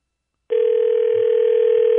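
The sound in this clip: A steady, low electronic tone from an outgoing phone call starts after a half-second of silence and holds unbroken, fairly loud, to the end.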